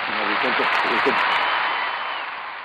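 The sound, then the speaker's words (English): Applause from an audience in Lyon County greets a re-election announcement. A steady wash of clapping plays, a voice speaks over its opening moments, and the applause thins slightly toward the end. “see, all of Lyon County is cheering.”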